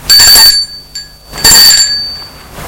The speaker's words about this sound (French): Il sort de voiture et va sonner à l'interphone.